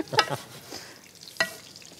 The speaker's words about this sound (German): Ich verfeine das jetzt noch ein bisschen auf die deutsche Art. Ja. Wobei Butter wird in der Türkei auch verwendet.